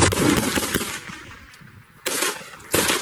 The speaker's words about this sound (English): Isn't that shooting? Real sound from a real place.